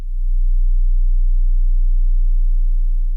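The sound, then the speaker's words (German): A pure 30 hertz sine tone, a very deep, steady hum held loud and unchanging for about three seconds with nothing else around it. “Ich spiele euch jetzt hier mal 30 Hertz ab.”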